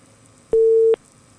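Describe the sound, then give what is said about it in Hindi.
A telephone busy tone after a call disconnects: one steady, mid-pitched electronic beep lasting under half a second over faint hiss. “शायद phone cut गया है।”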